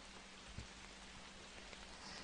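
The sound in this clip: Steady rain falling, a soft, even wash of hiss with faint scattered drops, heard alone and quiet throughout.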